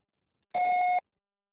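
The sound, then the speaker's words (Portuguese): A single answering machine beep, one steady electronic tone lasting about half a second, loud and clean against silence. “Após o sinal, deixe seu recado.”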